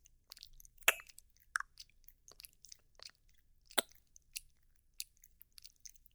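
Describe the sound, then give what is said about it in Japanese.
A mouth chews and bites on a thigh, giving soft, moist smacks and crisp clicks. They come in a sparse, irregular series, fairly faint, with quiet gaps between them. “太もも噛んでる、はんでる、もぐもぐしてる。”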